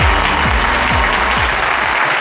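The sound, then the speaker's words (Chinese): An audience applauds to welcome a guest teacher onto the stage. The clapping is dense and steady, loud and even from start to finish, with no voices over it. “那掌声欢迎我们的陈老师。”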